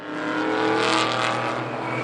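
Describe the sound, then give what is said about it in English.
About twenty late-1960s Ford Mustangs roar around a tight turn at a race circuit near Monterey. The loud, dense blend of engines holds steady throughout with no gaps. “This is the sound of about 20 late 60s Ford Mustangs hauling around a tight turn at the Mazda Laguna Seca Raceway near Monterey.”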